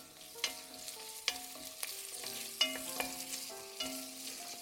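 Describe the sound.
Onions frying in duck fat, with a soft continuous sizzle broken by several sharp clinks and scrapes as they are stirred at an uneven rhythm.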